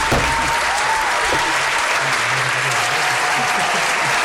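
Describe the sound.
A crowd applauds and acclaims a champion star forward of a football team. The clapping is dense, steady and sustained throughout, with no pauses.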